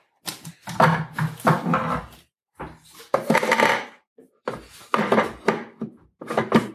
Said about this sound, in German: So auch noch in den Zutaten für die Füllung in den Mixtopf geben und 40 Sekunden Stufe 5. Erstmal der Deckel drauf.